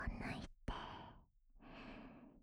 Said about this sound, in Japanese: 深いところまでちゃんとふうふうしてあげますね。